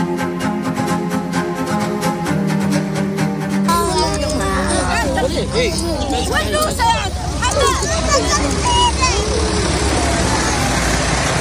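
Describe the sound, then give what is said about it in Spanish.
Crowd hubbub and road traffic at the reopened Rafah border crossing between Gaza and Egypt: a busy mix of many overlapping voices with vehicle noise underneath, holding a steady level throughout. “Este es el sonido de la reapertura del paso de Rafah.”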